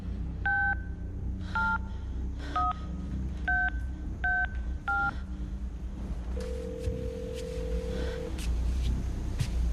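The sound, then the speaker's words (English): Touch-tone keypad beeps from a cell phone lying on the floor as it dials a number: six evenly spaced dual-tone beeps, then a long steady lower tone, over a constant low hum. “behind her the phone on the floor continues to dial.”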